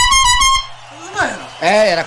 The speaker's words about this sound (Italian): La trombetta, non vedo la trombetta, eccola qua, questa volta ce l'ho io.